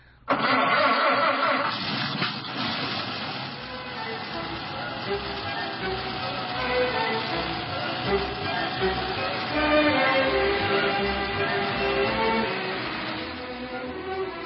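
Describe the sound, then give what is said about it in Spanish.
An early automobile engine starts up, then settles into a loud, rough, continuous mechanical chugging and rattling that runs steadily with slight surges throughout. “Y a la casa del profesor nos dirigimos en una de esas máquinas infernales que llaman automóviles, tan de moda en estos días.”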